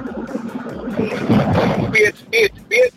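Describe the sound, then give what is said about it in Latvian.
Car driving noise heard over a phone call, a rushing, watery-sounding rumble that fills the line steadily, with a few short voice-like bursts breaking in near the end. “Jūs esat kaut kur ūdeņos? Nē, braucam mašīnā. Tāda ūdņaina skaņa.”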